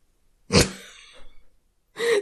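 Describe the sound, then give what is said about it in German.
Quick, sharp breaths taken in close succession, a loud breathy rush first, then a trailing, fainter exhale and another strong intake at the end; no talking. “Oh, guck mal, jetzt hast du gerade dreimal schnell hintereinander geatmet zur Strafe, ne?”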